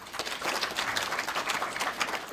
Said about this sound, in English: So I think we should give them one more round of applause.